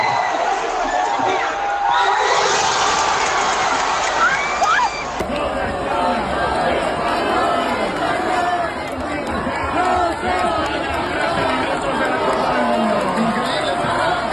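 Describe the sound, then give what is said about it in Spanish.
A crowd in a public square in Gijón celebrates a football goal that wins Spain a World Cup, a loud, continuous mass of cheering, shouting and chatter that stays dense for the whole stretch. “así se celebró en Gijón, un gol que da a España un Mundial.”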